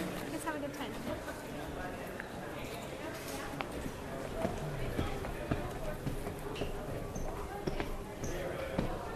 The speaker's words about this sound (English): We're heading upstairs now to the third floor of the EMP